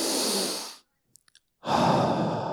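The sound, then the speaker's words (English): A deep breath drawn in through the nose: two long, loud, breathy rushes separated by a short silent pause that holds a few faint small clicks. “closing their mouth, then taking a deep breath in through their nostrils, through their nose, a bit like this.”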